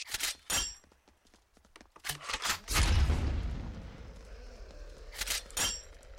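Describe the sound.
A grenade explodes in a video game with a deep, rumbling boom that decays over about a second, set among sharp, gunshot-like cracks that come before and after it.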